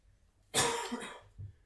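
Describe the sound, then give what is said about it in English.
A coughing fit: one harsh, rasping cough is followed by a shorter, softer one against an otherwise quiet background. “I'm sorry you had to endure the sporadic coughing fits.”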